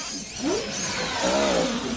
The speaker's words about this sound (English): The dark luxury car pulls up outside the professor's house.